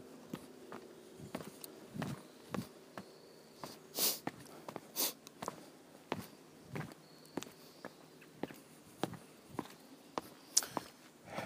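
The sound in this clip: Footsteps climb a long flight of steps, with many steady footfalls in an even rhythm and a few heavier, scuffing steps partway through, over faint background noise.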